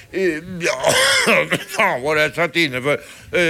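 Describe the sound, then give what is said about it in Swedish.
A man with a cold coughs and clears his throat, the rough bursts mixed in with his own speech. “Förlåt mig att jag hostar, men jag är nämligen förkyld.”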